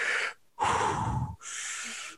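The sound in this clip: Rapid deep breathing as an exercise: three forceful, loud, airy breaths in quick succession, each lasting under a second and separated by short gaps, with no talking.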